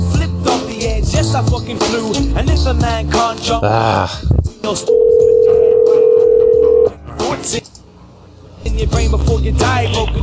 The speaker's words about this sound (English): She's making me call a phone number instead of her Skype.